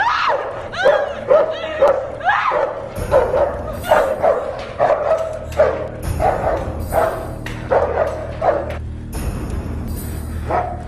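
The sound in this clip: A dog barks and yelps repeatedly in short bursts as it is set loose on a woman, with voices and other sounds mixed in.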